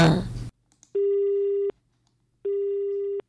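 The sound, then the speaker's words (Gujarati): A telephone busy tone sounds after a call is cut off: two long, steady, mid-pitched beeps separated by a gap of silence, following a brief voice at the very start. “ઓ આપનો phone તો cut થઈ ગયો”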